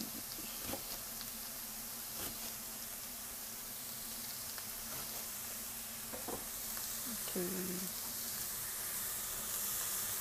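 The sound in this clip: Green onions stirred in a sizzling pan while cooking miso ramen. A steady, quiet hiss of frying runs throughout, broken by a few light clicks and taps from the stirring.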